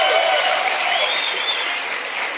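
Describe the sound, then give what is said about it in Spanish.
Audience applause from men in the crowd at a talk on marriage: dense, steady clapping that fills the whole stretch and eases slightly in loudness toward the end. “Aplaudan, hombres, aplaudan.”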